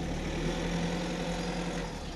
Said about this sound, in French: vous aviez pas prévu les voitures qui allaient se garer devant